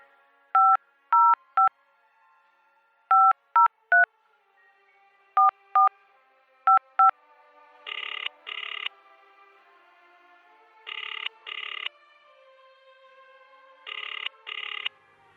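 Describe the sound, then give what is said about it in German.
Touch-tone dialing of a phone number, ten quick beeps in short groups, followed by three double-burst rings of the line, with no talk. “Ja, dann wollen wir mal den Malik anrufen.”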